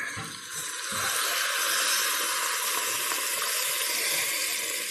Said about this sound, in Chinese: 没错没错，还是加入开水，